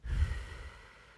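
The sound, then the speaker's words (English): One cleansing breath, exhaled through pursed lips after a nasal inhale: a soft, airy breath that starts moderately and fades away over about a second, with no speech. “The first type of breathing let's practice is called the cleansing breath. You breathe in through your nose and then purse your lips like you're going to give someone a kiss and breathe out through that pursed lip.”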